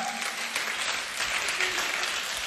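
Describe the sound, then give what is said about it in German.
Audience applause at a youth church gathering in Wuppertal: a steady, fairly faint wash of clapping that holds evenly throughout with no voices rising above it. “Komm mal, einen Applaus für euren Döner.”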